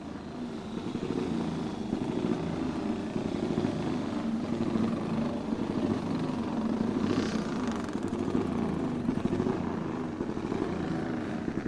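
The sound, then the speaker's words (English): A 350cc Velocette motorcycle being ridden at speed in a race setting gives a loud, steady engine drone that holds without pause for the whole stretch. “Former Manx GP and TT winner Nick Jeffries will represent Freddie today, riding a 350cc Velocette, the manufacturer Freddie rode and enjoyed a lot of his success with. Here he goes.”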